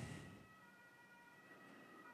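An ambulance siren sounds faint and steady as it passes by, holding a constant tone throughout.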